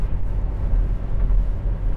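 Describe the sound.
A car on the road gives off a steady low rumble of engine and tyres, a constant muffled drone with small swells and no talk over it.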